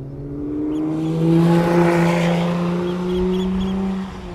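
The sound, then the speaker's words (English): A Lotus Emira sports car drives past on a circuit, its loud engine note swelling in a strong, steady tone, easing slightly, then surging again before fading. “So Jenson is currently hooning around in the Emira. He's going to fly past very shortly for another quick soundbite. Just have a listen to this.”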